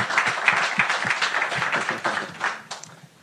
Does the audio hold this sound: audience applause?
yes